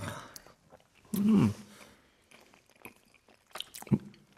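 Chewing and biting as a man tastes food at a dinner table: one loud, wet, squishy bite, then quieter mouth noises and a second short crunch near the end.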